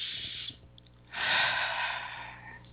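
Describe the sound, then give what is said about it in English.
One deep, airy breath taken during a guided spiritual meditation, lasting over a second after a quiet pause, heard alone without talk. “So I'm going to be quiet, take a deep breath first,”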